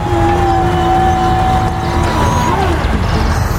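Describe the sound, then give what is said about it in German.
Engine of a vehicle fitted with a shovel pulling away in first gear, a loud, steady motor rumble with a droning tone that holds level and then bends as it moves off. No one speaks. “Ich mach mal den ersten Gang rein. Es klappt. Wir fahren.”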